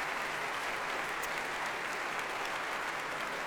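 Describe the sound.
Applause from a concert audience at the Royal Albert Hall after a piano soloist's performance with the Hallé orchestra. Dense, even clapping holds at a steady level across the whole stretch, with no voices.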